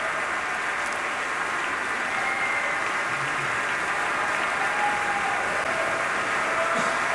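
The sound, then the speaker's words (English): Concert audience applauding the Pacific Symphony after Mahler's Resurrection Symphony: continuous, even applause like steady rain, with no distinct individual claps and no pauses. “And continuing applause as Alexander Shelley acknowledges various members and sections of the orchestra.”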